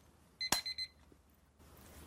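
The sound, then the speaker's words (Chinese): An alarm clock sounds four short, high electronic beeps in quick succession, then falls silent as it is switched off, leaving only faint background noise. “我把闹钟关掉。这是一个闹钟，我把闹钟关掉。”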